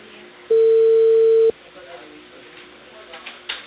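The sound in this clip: A single steady telephone beep lasting about a second, loud and low-pitched, set against faint background voices and noise.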